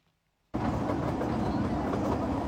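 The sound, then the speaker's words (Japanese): A trolley train on the Kurobe Gorge Railway in Toyama, Japan, running along: after a brief quiet moment the noise cuts in abruptly, then holds as a steady, loud, rushing rumble to the end. “富山県の黒部峡谷鉄道トロッコ電車です。”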